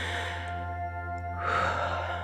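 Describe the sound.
Exhaled breath during a breathing exercise, a breathy rush of air that begins partway through and carries over a steady low tonal hum.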